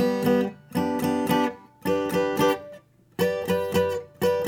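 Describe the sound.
Electric or acoustic guitar chord shapes moving along the neck, including shapes at the 10th and 12th frets on the high strings: bright picked chords in three quick clusters, separated by short ringing pauses, with no talking.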